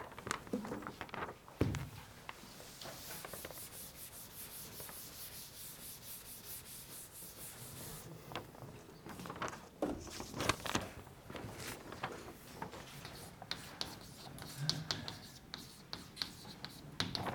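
Chalk scratches and taps across a blackboard during a lecture on delayed branch instructions: many faint, dry rubbing strokes and short clicks in an irregular rhythm, with occasional louder taps.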